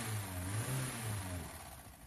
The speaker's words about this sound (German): Rosemarie kauft sich eines der wichtigsten Statussymbole der Nachkriegszeit, ein Auto. Einen teuren und schicken schwarzen Mercedes 190 SL. Mit diesem Gefährt fällt sie auf.